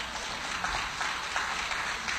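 A church audience applauds a guest in the house during a service. Steady, fairly faint clapping forms a dense patter that stays even throughout.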